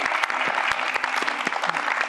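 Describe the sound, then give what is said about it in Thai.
Audience applause welcoming a guest onto a stage show, brisk, crisp clapping with many sharp individual claps, moderately loud and continuous throughout. “ขอเสียงปรบมือต้อนรับคุณไส้หลินหวังครับ”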